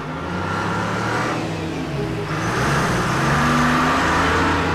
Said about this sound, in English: Next day, he's in one of two prison trucks driving towards the coal mine.